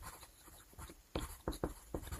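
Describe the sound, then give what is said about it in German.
A pen scratches across a paper note while a name is written: soft, uneven strokes, then a few sharper, louder scrapes and taps in an irregular rhythm, with no talking. “Weil ich jetzt Katja Brandis gesagt habe, habe ich jetzt Juniper geschrieben.”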